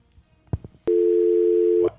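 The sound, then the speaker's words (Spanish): Telephone line tone as a caller's call is taken on air: a few soft clicks, then one sharp click and a steady, loud, mid-pitched tone that holds for about a second before stopping. “Vamos a recibir esa llamada.”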